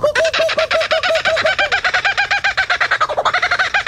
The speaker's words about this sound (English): It's a laughing bird.